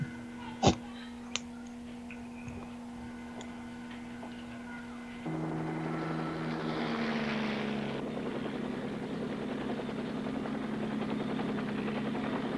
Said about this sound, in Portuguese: E essa volta de helicóptero vai ficar barata.